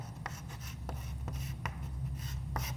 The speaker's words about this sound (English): If you can read my sloppy writing.